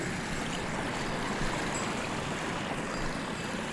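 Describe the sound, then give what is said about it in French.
Water gurgling as it makes its way along a course, a steady dense rushing and bubbling flow that holds an even level throughout with no pauses and no voices. “le gloussement de l'eau qui se fraye en chemin.”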